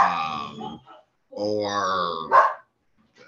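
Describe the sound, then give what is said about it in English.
Dogs bark and whine excitedly as a visitor arrives at the house, in two long, high-pitched bursts followed by a sharp yelp, with pauses of near silence between them. “Excuse my dogs. My mom has arrived to pick up our dog. They're going insane.”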